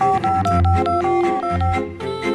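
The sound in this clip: Telephone keypad tones as a number is dialled: a quick series of short, steady beeps, each at a different pitch, sounding one after another with no talk.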